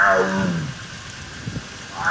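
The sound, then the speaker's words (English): Deep, harmonic growling moan from a Sumatran tiger at a zoo, falling in pitch at the start, then a lull with faint low rumbles before another moan begins at the end. “Echo, a Sumatran tiger at the Akron Zoo.”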